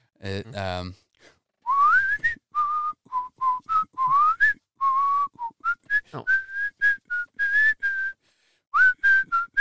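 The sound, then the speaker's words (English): A person who cannot sing whistles a familiar disco-era pop melody as many short, clipped notes at a fairly high pitch, some sliding between tones. The whistling is clear and continuous, with no talk over it. “Yeah, that's why I whistle, because I can't sing. Just stay whistling, buddy. Stay whistling.”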